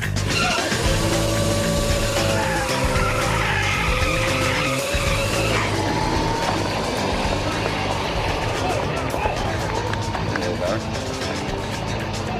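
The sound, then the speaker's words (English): A motorcycle does a burnout on a race track: loud, continuous tire squeal and roaring engine noise that hold steady for the whole stretch, with voices mixed in underneath. “I am the owner of the bike, so it's probably good that I was the one that did the burnout out here and took it down the track.”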